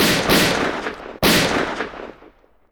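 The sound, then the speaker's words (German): Gunshots fired from a boat by a shooter leaning over the side and aiming at a large ray under the water, heard as two loud, sharp blasts. Each is followed by a rumbling tail, and the second fades away slowly. “Er zielt und drückt ab.”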